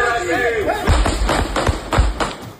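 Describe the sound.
Several sudden gunshots from a shootout in which plain-clothes police officers were fired upon, heard as sharp, heavy thuds spaced irregularly beneath people talking.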